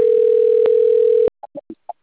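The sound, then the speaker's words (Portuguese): Telephone tone on a call line: a loud, steady, even tone holds for over a second, then cuts off into a few short, separate beeping bursts. “Estão ligando para mim Alô?”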